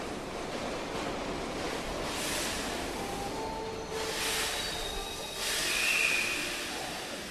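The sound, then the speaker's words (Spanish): A subway train arrives with a continuous broad roar and rumble. The roar swells in a few waves and grows loudest near the end, with no one speaking. “A ver, espera que ahí viene el subte, ahora la seguimos.”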